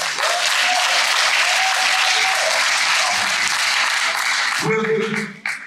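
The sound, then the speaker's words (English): Dense, steady audience applause for an honoree at an awards event, loud and sustained throughout, with a voice briefly heard over it near the end. “Congratulations. Thank you. Give him a hand.”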